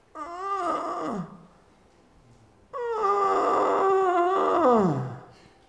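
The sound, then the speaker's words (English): A voice imitates the groan of a sick man: two drawn-out moaning groans separated by a pause, the second longer and louder, each sagging downward in pitch as it trails off. “I heard the groan. I recognized his pain. I knew his need.”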